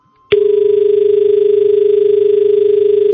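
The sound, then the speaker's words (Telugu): A telephone call cuts off with a click, then a steady, loud, continuous tone holds until the end. “Call cut అయిపోయింది.”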